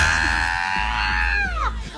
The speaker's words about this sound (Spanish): La mujer gritando en el fondo.